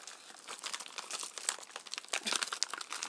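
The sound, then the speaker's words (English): Crinkling of a sealed plastic bag holding a sample kit as someone handles it while trying to open it without ripping it. A dense, quiet run of crackles and rustles continues with no talk. “But it's inside a sort of sealed bag thing, and I'm imagining that it needs to go back in this bag, so I don't want to rip it. But I can't work out how you get in.”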